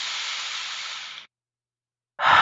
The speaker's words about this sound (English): And you take a deep breath in and release it.